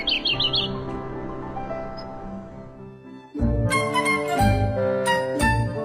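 Birds chirp in a Beijing district garden with blooming roses: a few quick, high tweets at the very start, then sustained instrumental tones that give way to louder rhythmic beats.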